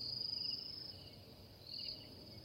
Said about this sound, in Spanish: cuanto puso su cabeza en la almohada, se escuchaban grillos.